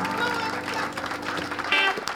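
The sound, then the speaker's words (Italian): The crowd at a live show at PJ's applauds and cheers as showtime begins. Energetic clapping mixes with voices and some sustained tones, and swells into a louder burst near the end. “now it's showtime at PJ's. How about a great big round of applause?”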